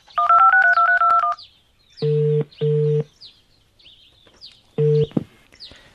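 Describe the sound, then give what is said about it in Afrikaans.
A telephone being dialed: a rapid run of keypad beeps, then a few steady ringing tones separated by pauses. “ek ek bel hom nou dadelik.”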